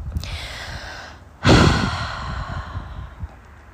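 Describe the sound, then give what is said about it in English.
A long breath out through the mouth during a guided breathing exercise: a sudden, loud breathy whoosh that slowly fades, with quieter breath sounds before and after. “we're going to breathe out through our our mouth”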